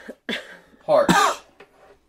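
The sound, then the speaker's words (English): A person coughs harshly after sniffing a pungent, potent-smelling substance. There are a few short, rough bursts, one of them longer and throaty like throat clearing, and some fainter breaths between them. “Edit that cough out.”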